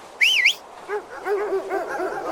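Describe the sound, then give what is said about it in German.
Dogs are heard in a short burst: a high, wavering whine comes first, then several quick yips and yelps that rise and fall in pitch, at moderate loudness. “Ich werde die Hunde loslassen.”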